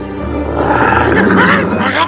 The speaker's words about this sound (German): Und die Tiger stürzen sich wie die Berserker darauf.